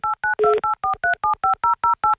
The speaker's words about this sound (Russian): Набран номер телефона